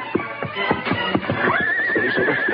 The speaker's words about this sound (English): Then there only a short time when he heard the fast beat of galloping hoofs approaching.